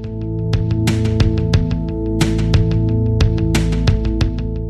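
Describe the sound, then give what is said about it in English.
An old 1980s Alesis drum machine plays a pattern treated with delay effects: crisp, rapid hits in a steady repeating rhythm with echoing repeats, over sustained tonal notes. “What you're hearing there is an old Alesis drum machine.”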